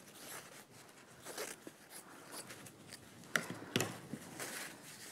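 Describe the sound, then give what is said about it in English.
Scissors cut through fabric in a craft project, a faint run of soft, crisp snipping and rustling bursts, with a few sharper cuts clustered near the end. “I also have a lot of fabric to cover the bottom. So can cut a good chunk here.”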